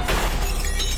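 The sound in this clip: A car mirror breaks against a pillar in an underground parking garage, producing a loud, continuous bright crunch of shattering glass and plastic with no pause.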